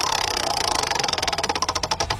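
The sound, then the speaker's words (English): Rapid ratcheting clicks from a prize dial being spun in a call-in competition, a steady stream of sharp ticks that grows more distinct toward the end, with no talk. “Ready to spin over there? Okay, let's spin the first dial.”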